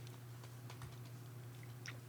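Someone types a Google search on a computer keyboard. It is a faint run of light, irregular key clicks over a steady low hum.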